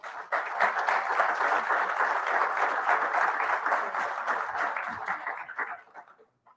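Warm, sustained applause from an audience at the VMHC welcoming a lecturer, a dense even patter of many clapping hands that holds for several seconds and then thins out and stops.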